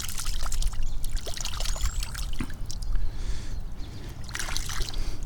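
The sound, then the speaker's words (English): Water pouring and trickling while a golf ball is washed off, a steady splashing wash that runs unbroken from start to finish. “I'm gonna wash this golf ball off.”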